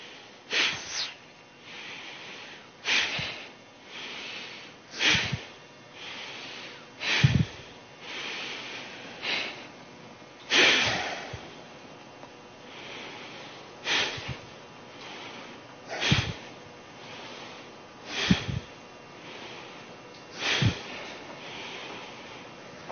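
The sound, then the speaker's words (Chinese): A breathing exercise of four short exhales and one long, made with the mouth closed, through the nose or clenched teeth: many sharp, airy breath bursts repeat at a steady pace, with softer breathing between them. “假如有一点这个堵塞，鼻子堵塞，那那咬的牙齿从牙缝里面也可以，也可以吐气。好，我们再来一次啊，四个短的，一个长的。”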